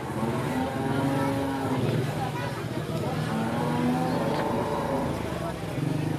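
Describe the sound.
Riding in a rickshaw through the streets of Jaipur, with a continuous rattling engine drone and surrounding traffic noise holding steady throughout.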